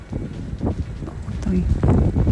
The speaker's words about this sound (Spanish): De hecho, nos han hecho llegar algunos videos desde Buin, desde otros puntos. Mira, ahí se escucha el viento.